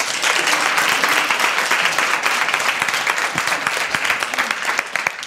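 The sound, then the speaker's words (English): An audience applauds to welcome a speaker, with thick, continuous clapping from many hands at a strong, fairly steady level that eases off only slightly toward the end. “So welcome to Revive Our Hearts. Give Erin a hand if you would.”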